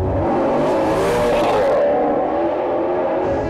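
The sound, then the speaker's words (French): A black sports car accelerating in traffic, its engine roaring loudly and continuously throughout, bright and aggressive at first, then duller in the second half. “Il accélère.”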